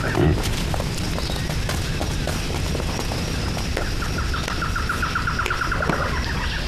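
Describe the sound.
A wild boar squeals over a dense, rumbling wash of noise, with a thin, high-pitched squealing run standing out in the second half.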